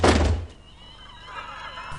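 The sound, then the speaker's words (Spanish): A bedroom door is shut in The Exorcist with one heavy, dull thunk at the start, followed by a quiet low hum. “Carras cierra la puerta.”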